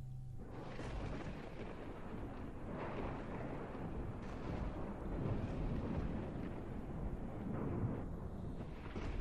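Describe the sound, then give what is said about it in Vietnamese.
Magical thunder rumbles as a low, continuous, faint roar that swells a little and holds steady throughout, with no sharp cracks. “Tiếng sấm sét trên không trung vang lên đùng đùng, nghe đến rợn cả người.”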